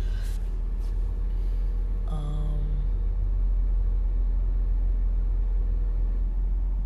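Steady road rumble inside a moving car, a continuous low drone with engine and tyre noise at an even level throughout and no talking.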